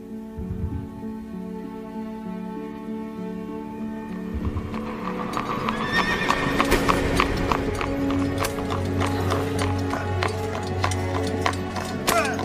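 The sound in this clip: Clip-clop of horse hooves as a horse-drawn carriage passes, a steady run of sharp hoof strikes that becomes fuller and slightly louder partway through.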